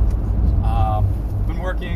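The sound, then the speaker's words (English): A van being driven gives a steady, low engine rumble with road noise throughout, under a man's talking. “I'm currently driving the van.”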